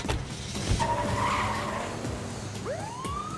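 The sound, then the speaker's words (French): Tires skidding as a van speeds off to resume a police chase: a continuous roar of engine and road noise, with a sharp rising tire squeal near the end. “Les membres de l'unité SWAT ordonnèrent aux deux derniers voleurs de descendre de la camionnette. Mais le véhicule démarra et la poursuite reprit.”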